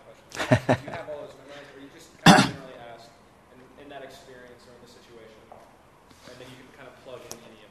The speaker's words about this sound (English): Excuse my throat here. Got to make a swallow.